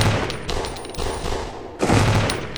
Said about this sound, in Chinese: 对面突然窜出一个戴面具的男人，手中赫然端着一把突击步枪。